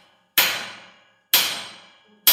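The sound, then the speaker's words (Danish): A diver's hammer striking a submarine's steel hull underwater at about 100 m depth gives three sharp, loud metallic blows about one second apart, each with a bright attack and a ringing decay that fades before the next. “Men hammer banker en af dykkerne 4 kraftige slag på Kursks stålskrog. Ingenting. Så hamrer han igen, endnu hårdere.”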